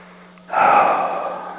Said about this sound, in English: Take a deep breath.